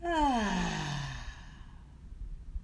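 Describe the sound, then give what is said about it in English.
A deep, voiced breath out during a guided breathing meditation, sliding down in pitch as a long sigh and fading into quiet. “Breathe in and out.”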